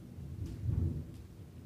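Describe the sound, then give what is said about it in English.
Thunder rolls as a faint, low rumble that swells briefly near the middle and then fades back to a soft murmur, with no voices. “could you hear the thunder?”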